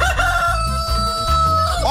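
A rooster crows once, loudly, in a long buzzy, harmonic call that holds and wavers across the whole clip.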